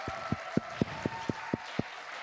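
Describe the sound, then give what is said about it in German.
A church audience claps in steady unison: eight faint, evenly spaced claps about a quarter second apart over a sustained tonal hum. “Ich weiß, jetzt geben wir auch dem Patrick einmal einen kräftigen Applaus.”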